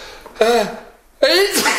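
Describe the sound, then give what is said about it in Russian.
Two loud, voiced sneezes from a person with a cold, each a drawn-out vocal build-up; the second ends in a sharp, hissing burst. “Прекрати чихать, надоело.”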